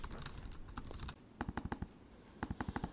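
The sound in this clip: Someone types a letter on a computer keyboard, producing quiet, quick clicking keystrokes in several short bursts separated by brief pauses.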